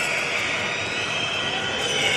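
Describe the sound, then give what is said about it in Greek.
PAOK fans booing a volleyball player during a match against Panathinaikos: a loud, steady crowd roar that holds unbroken for the whole stretch. “Ο κόσμος του ΠΑΟΚ τον αποδοκιμάζει.”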